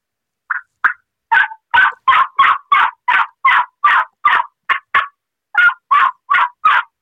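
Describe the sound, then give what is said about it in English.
Loud turkey yelps from a Woodhaven modified cutter mouth call, made by a person imitating a turkey: many evenly spaced, raspy notes in a brisk rhythm with a short pause partway through. “This is my modified cutter. It's in our mouth call line. But I'm going to do some yelp, some regular yelping. I'll give you an example about toning it down and learning the softer stuff. This is the louder yelping.”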